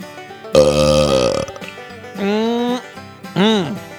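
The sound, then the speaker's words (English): Three wet belches, each voiced and drawn out, with gaps between them; the first is longest and loudest, and the last is short and arches up then down in pitch. “I give them the dreaded Under Country Music News Wet Belch of the Week. Sounds something like this.”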